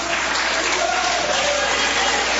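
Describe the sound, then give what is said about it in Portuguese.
Clapping from a church audience during a worship service: a dense, continuous wash of hand claps that holds at a steady level throughout. “Pode bater palmas e dar glórias.”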